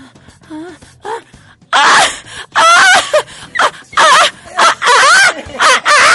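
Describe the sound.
A human voice imitates chickens being killed in a henhouse. A few fainter clucks are followed by many loud, frantic, high-pitched squawks and shrieks in short, choppy bursts.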